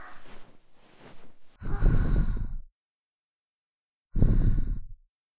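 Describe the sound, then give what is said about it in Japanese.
Sudden breaths blown by an ASMR speaker: two loud, rushing exhalations, each about a second long and separated by silence, following a quieter stretch of soft, breathy whispering. “突然の吐息も気持ちよかったですか？”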